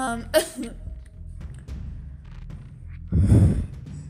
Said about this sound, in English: sorry, I had to yawn again.